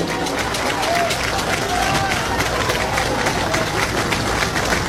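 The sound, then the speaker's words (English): Baseball fans cheer at a college Super Regional game: a dense, steady roar of crowd noise and chatter that runs unbroken through the whole clip. “Sooner fans making some noise now.”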